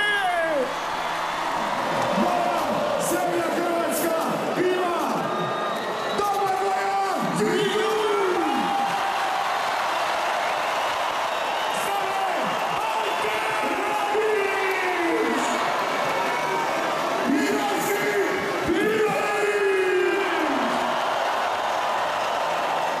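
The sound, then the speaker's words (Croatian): Crowd cheering to welcome the Croatian national football team, a dense, continuous roar of voices with whoops and sharp whistles rising out of it. “Ljudi, hrvatska reprezentacija je stigla, vatreni su stigli. Ajmo na veliki pljesak za njima!”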